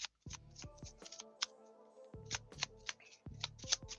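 Tarot cards are handled and an angel card is drawn from the deck: faint papery flicks and snaps of cards at an irregular pace over a low, steady hum.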